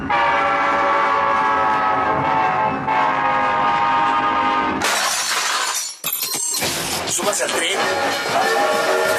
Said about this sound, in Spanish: ¡Subas al tren! ¡Subas al tren!